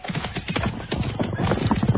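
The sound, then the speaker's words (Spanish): A horse gallops with its rider aboard: rapid, rhythmic hoofbeats clatter steadily and fairly loudly throughout, growing slightly stronger toward the end. “Caballo y jinete partieron como un huracán.”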